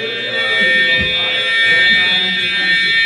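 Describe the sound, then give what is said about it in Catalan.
A nuclear attack alarm sounds at a missile-warning radar post, a loud, continuous buzzing electronic tone with a steady, unwavering pitch that persists throughout. “Just un minut després torna a sonar l'alarma d'atac nuclear.”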